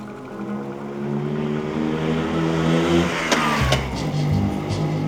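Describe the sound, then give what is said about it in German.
A Vespa scooter engine hums steadily as it rides through the streets of Rome. Its mid-pitched drone is fairly loud and continuous, with some revving toward the end. “er kurft mit dem italienischsten aller Fahrzeuge durch Roms Straßen, mit einer Vespa.”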